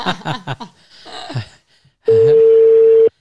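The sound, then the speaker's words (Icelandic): The ringing tone of an outgoing telephone call: a single steady, even-pitched tone lasting about a second, coming after people talk and laugh. “hann svarar ekki En við látum samt hringja Látum hringja og látum hringja út”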